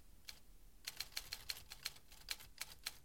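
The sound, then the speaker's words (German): Typing on a typewriter: after a single early stroke and a short pause, many sharp mechanical clacks follow in a quick, fairly even rhythm. The clacks are faint, and there is no talk. “Da schrieb doch jemand im ersten Stock auf einer Schreibmaschine.”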